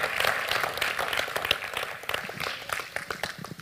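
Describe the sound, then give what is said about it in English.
A church audience applauds to welcome a speaker, a dense burst of clapping that holds strong for about two seconds and then thins and fades slightly toward the end. “So put your hands together.”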